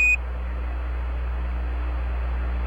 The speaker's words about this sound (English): Give us a reading on the 1202 program alarm. Roger, we got you. We're going at alarm.